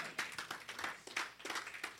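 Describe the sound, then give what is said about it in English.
Congregation clapping hands for the Lord at a church anointing service, many fairly faint claps in a loose, somewhat uneven rhythm. “Clap for the Lord Jesus.”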